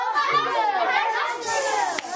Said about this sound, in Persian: بچه ها الان وقت این شلوغ بازی ها نیست، الان وقت امتحاناته. این شلوغ بازی ها باشه برای تعطیلات تابستون.